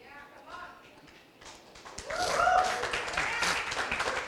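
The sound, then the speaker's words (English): Church audience clapping, quiet at first and then swelling into a loud, dense burst of applause that keeps going to the end, with voices mixed in. “Now, some of you are wondering, why did we just clap?”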